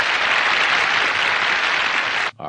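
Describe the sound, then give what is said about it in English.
An award-ceremony audience applauds in a dense, steady wash of clapping for over two seconds, which then cuts off abruptly and leaves a faint tail. “So everybody's clapping.”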